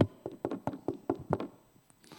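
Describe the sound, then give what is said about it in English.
Knocking on a door played as a sound effect, several quick, fairly faint raps in a steady rhythm that then stop. “like servants waiting for their master to return from a wedding banquet, so that when he comes, when Jesus comes, and when he knocks,”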